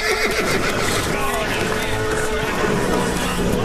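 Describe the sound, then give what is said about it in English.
Horses whinnying and neighing loudly as they close in and rear up with hooves raised to strike, the calls layered over a dense, constant wash of noise that never lets up. “His back to the water, Stripes watches the horses close in. They all rear up, hooves ready to strike.”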